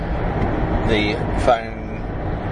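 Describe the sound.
Steady road and engine rumble inside a moving car while driving, a broad, even noise bed that holds at a constant level with a slight swell near the middle.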